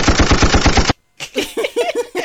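A gunfire sound effect opens with a rapid string of loud, evenly spaced automatic shots lasting under a second. A brief silence follows, then a run of quieter, pulsing sounds.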